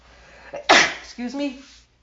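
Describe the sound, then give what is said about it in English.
A person sneezes once, a sharp explosive burst that follows a short breath in. A brief voiced sound comes after the sneeze. “I think I have to sneeze.”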